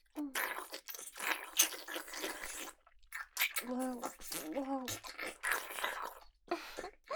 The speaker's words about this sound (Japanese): ドスケベなベロベロ音が頭の中いっぱい